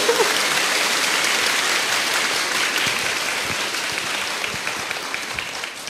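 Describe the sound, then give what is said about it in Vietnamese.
An audience at a Buddhist talk in Vietnam applauds, a dense, steady patter of many hands clapping that continues throughout and eases slightly in volume toward the end. “quý vị vỗ tay rồi nhưng mà bây giờ mới cần phải vỗ tay lại lần nữa đó.”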